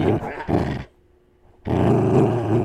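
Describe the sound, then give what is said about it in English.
A puppy growls while playing with a teddy bear, giving two loud bursts of rough, gravelly growling separated by a short quiet pause. “And enjoy some of my puppies growling. He's playing puppies with his teddy bear.”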